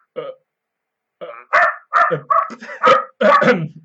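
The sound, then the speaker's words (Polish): A dog barks: one short bark, a pause, then a quick run of several sharp, loud barks and yaps. “pies mi szczekał?”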